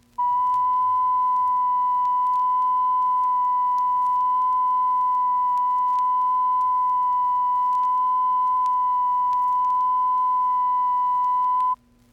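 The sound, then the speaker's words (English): A steady 1,000-cycle test tone for checking a turntable for wow and flutter: one pure, unwavering pitch held loud and alone for about twelve seconds, with a clean start and stop. “Here again is a 1,000 cycle tone.”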